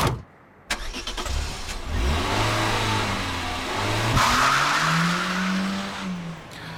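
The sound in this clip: A car speeds away with squealing tires, its engine revving hard in several rising surges, loud and continuous for several seconds with no voices.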